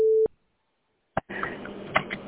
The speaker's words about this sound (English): You have reached the voicemail system. Please leave your message after the tone.